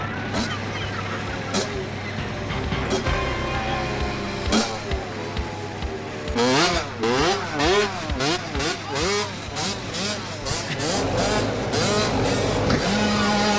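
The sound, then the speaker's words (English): A dirt bike engine revs hard against a bulldozer in a film scene, with repeated surging revs over a steady mechanical rumble. “The dirt bike is pushing back the bulldozer.”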